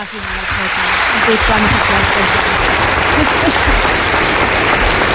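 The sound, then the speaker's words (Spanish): Studio audience applause for a guest on a Spanish TV show: dense clapping swells quickly from the start and holds loud and even, with a voice talking beneath it. “Os pido un aplauso para ella.”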